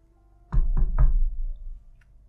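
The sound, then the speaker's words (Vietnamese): Three sharp knocks on a door that is already open, evenly and quickly spaced, loud and alone, followed by quiet. “Cánh cửa đã mở sẵn, ông vẫn gõ 3 tiếng.”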